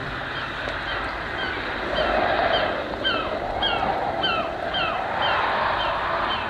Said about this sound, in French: Non, regardez la mer qui accourt par la grève. comme c'est beau.